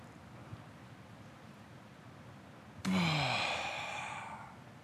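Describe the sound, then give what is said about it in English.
A group of people takes a big deep breath in: after quiet background hiss, a sudden loud breathy rush rises and slowly fades away over the last two seconds. “everybody take another big, deep breath in.”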